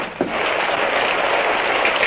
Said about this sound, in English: Well, it's still blowing and raining. Looks like it'll never stop.